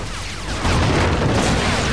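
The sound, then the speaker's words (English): A pipe explodes inside a room: a loud, broad roaring blast that swells up partway through and stays as a heavy, rumbling wash of noise to the end. “It's gonna blow! Alex and Kelly jump to safety as the pipe explodes, sending two of Gundar's men flying.”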